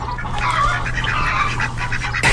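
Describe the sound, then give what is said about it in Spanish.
Hens clucking as they are addressed, a dense run of overlapping clucks and cackles that carries on without a break, fairly loud and alone over a low steady hum. “Ya, ya, señoras gallinas, ya con eso está bien. Sí, sí, se les agradece bastante, gracias.”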